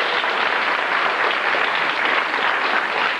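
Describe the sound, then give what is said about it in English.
Audience applause welcoming a guest speaker at a school assembly, a dense, even wash of many hands clapping at steady loudness throughout. “Let's give Mr. Morsell a warm welcome to Orr School.”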